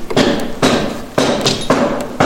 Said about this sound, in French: on serre un petit peu et vous allez venir me clouer tous vos litos ici en butée.